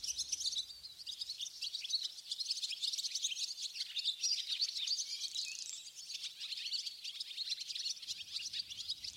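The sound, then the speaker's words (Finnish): A flock of swallows calls in dense, continuous high twittering: many overlapping chirps run throughout at a fairly faint, steady level, with no voices. “Pääskysparvi saattaa käsittää satoja, jopa tuhansia yksilöitä, ja siitä parvesta kuuluu riemu.”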